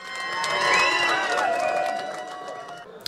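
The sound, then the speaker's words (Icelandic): A crowd cheers and shouts at an election night party at Glerártorg, the noise sustained and fairly faint, swelling early and then holding steady to the end. “Sjómasupptökur frá kosningavöku ellistans á Glerartorgi þessa nótt sína fagnaðalætin.”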